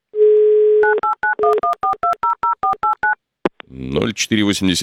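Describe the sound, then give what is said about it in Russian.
A phone dial tone runs steadily, then a rapid string of about a dozen tone-dialing keypad beeps for a number with a 911 prefix, followed by a brief click and a voice answering. “Этот номер мы набрали, префикс 911.”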